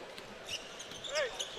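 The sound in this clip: A basketball is dribbled up the court late in a game, its soft, repeated bounces faint beneath a busy court ambience with a few high squeaky chirps.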